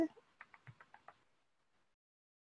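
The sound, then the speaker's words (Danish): Faint computer mouse clicking: a quick run of several light ticks within about a second, then near silence. “Hvis jeg bare klikker på den her, der hedder kurser”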